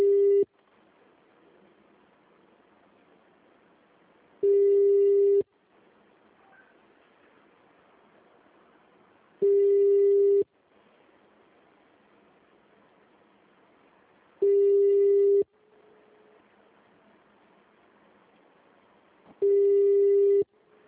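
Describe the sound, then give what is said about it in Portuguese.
A telephone busy signal on a call: a steady mid-pitched tone sounds for about a second, then goes quiet for several seconds. The pattern repeats about five times, with only faint hiss in the gaps. “Vou ligar para ele.”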